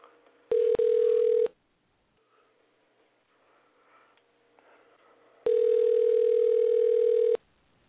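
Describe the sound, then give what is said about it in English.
A telephone calling tone plays while someone is being rung, as two long steady electronic tones. The first is briefly broken near its start, and a quiet gap with faint rustling separates it from the second. “I'm going to call her again. Bear with me. Let's dial this girl again.”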